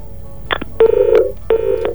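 Telephone dialing tones on a studio phone line, a few short, clear keypad beeps in quick succession, each a steady mid-to-high pitched tone, loud and without talk.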